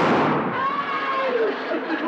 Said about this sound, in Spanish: Pero los tronadores son tan insignificantes, mire.